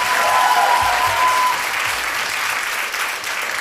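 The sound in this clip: A studio audience applauds with steady, full clapping that holds at an even level throughout and eases slightly near the end.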